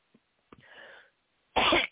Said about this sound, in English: excuse me, am I coughing?